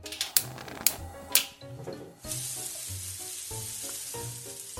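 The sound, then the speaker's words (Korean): Sizzle of baguette slices toasting in a buttered frying pan, coated in garlic, honey, sugar, melted butter and parsley. Three sharp clicks come first, then a loud, steady crackling hiss. “오븐 그런 거 없으니 팬에 버터를 바르고 앞뒤로 노릇하게 굽는다.”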